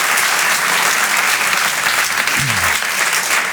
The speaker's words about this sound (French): Je vous demande de l'applaudir lui aussi très fort.